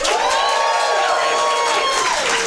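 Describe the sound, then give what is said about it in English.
A live audience at a comedy show cheers and whoops loudly, producing dense, sustained crowd noise throughout. “Can I get you to make some noise if you've been to Dungeons and Comedians before?”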